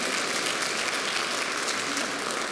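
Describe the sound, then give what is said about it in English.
An audience applauding during a church service: an even, continuous wash of clapping hands that holds at a constant level throughout. “I think God deserves a hand. I don't want to force you to clap”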